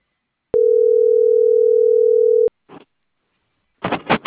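Telephone dial tone heard while dialing another number: a steady single-pitch hum lasting about two seconds, then a few brief, quiet clicks and noise bursts.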